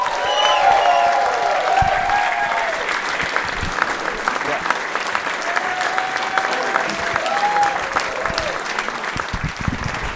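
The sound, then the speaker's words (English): A comedy club audience applauds a comedian leaving the stage, with dense, steady clapping that holds at an even loudness throughout. “Guys, keep it going for Ari Shaffir.”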